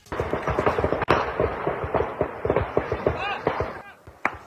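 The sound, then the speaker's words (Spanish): Rapid bursts of long-gun fire in avocado orchards, many sharp cracks in quick succession with a few louder isolated shots, voices mixed in. “cortadores de aguacates se observan hincados y pecho tierra intentando resguardarse detrás de una camioneta mientras escuchan las ráfagas de armas largas en las huertas.”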